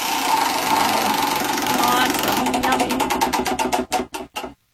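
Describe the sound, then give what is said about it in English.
Prize wheel spinning, a dense rattling whir under talk that breaks into distinct clicking ticks, spacing out as the wheel slows until a few last clicks and a stop. “let's go ahead and spin the wheel, see what it lands on.”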